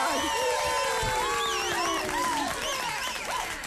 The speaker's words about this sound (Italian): Metti un applauso a Peppe Odice.